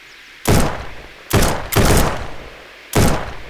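Four loud gunshots ring out during a chase on a rocky ridge. Each is a sharp, booming blast with a short decaying tail, irregularly spaced, and no voices are heard.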